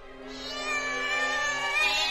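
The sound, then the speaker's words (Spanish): A black cat lets out one long, drawn-out meow, steady and fairly loud, heard alone without any voices. “la gata arquea el lomo y lanza un maullido”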